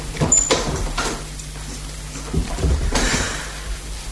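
A door is opened for a visitor with a few short clunks and scrapes of the handle and latch, a brief pause, then another cluster of knocks and a thump, with no talk.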